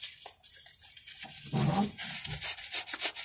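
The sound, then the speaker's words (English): Scraping something off a surface with the edge of a business card: rough, rasping strokes in an uneven rhythm, with a louder, fuller scrape near the middle and several quicker, lighter rubs after it. “Use the business card to try to scrape it off.”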